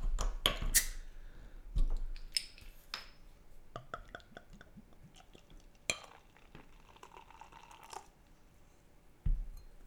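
A bottle of stout beer being opened and poured: a quick hiss and snap of the cap near the start, then scattered clinks of glass and soft handling noises, fairly faint throughout.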